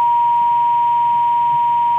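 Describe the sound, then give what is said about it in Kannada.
A phone line's disconnect tone during a call: one steady, unbroken high beep at constant loudness for the whole stretch, with nothing else clearly heard. “ಇದೀಗ ತಾನೇ line disconnect ಆಗಿದೆ.”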